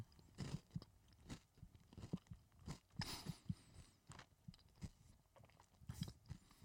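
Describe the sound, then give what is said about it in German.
Crunchy chocolate waffle being chewed, with many crisp, irregular crunches and soft mouth sounds. The bites are close and quiet, and no talk is heard. “Schokolade kann man ganz gut essen. Genauso wie gesagt mit der Waffel, das funktioniert eigentlich auch ganz gut lecker. Mm, mm. schön crunchy.”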